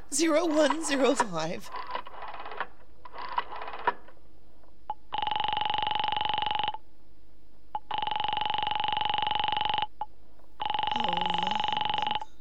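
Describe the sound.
Telephone dialing of a hospital number, a few short tone bursts after a brief voice, followed by three long, steady, loud ringing tones with a faint voice under the last.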